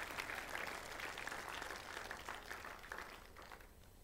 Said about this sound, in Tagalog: Palakpakan po natin si Jesus.